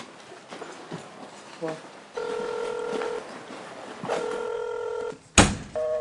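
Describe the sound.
Telephone keypad dialing: two long, steady dual tones, then a short, sharp burst, all over low background noise.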